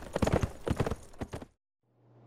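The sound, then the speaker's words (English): A horse galloping on a trail, its hooves beating a fast, loud, rhythmic clip-clop that stops abruptly after about one and a half seconds, followed by silence and then a low steady hum. “Frank swung up into the saddle and urged Goldie into a gallop, hitting the trail that led to Eureka.”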